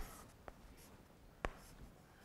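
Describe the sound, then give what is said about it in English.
Chalk writing on a blackboard comes through as two short, sharp taps, the second louder, over a faint steady hiss. “I'm going to erase over here, and what I'm going to write is that the area of the black hole”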